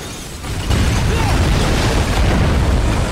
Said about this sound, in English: Everyone rushes out as the room explodes.